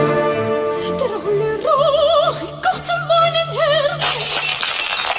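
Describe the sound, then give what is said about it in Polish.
Drinking glasses shatter in a bright, noisy crash near the end, right after an operatic diva sings high, wavering notes with strong vibrato over a low held tone, as if her voice breaks them. “Diwa operowa, śpiewając tłukła szklanki.”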